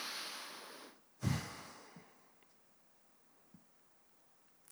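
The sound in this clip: A deep breath, heard as a faint, airy breathing hiss followed by a brief, sharp snort-like puff of air, then near silence with a few small soft clicks.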